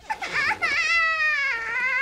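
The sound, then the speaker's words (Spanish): A baby cries in one sustained, high, tonal wail that sinks gradually in pitch. A brief, noisier outburst comes just before it. “¿Qué pasa? ¿Por qué llora? Oye, tal vez tenga hambre, ¿no crees?”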